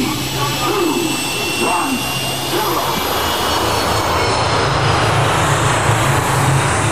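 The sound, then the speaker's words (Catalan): A jet aircraft taking off: a loud, steady engine roar with a thin high whine running through it, holding even and unbroken for the whole stretch. “Som a punt d'enlairar-nos cap a les 7 llunes màgiques.”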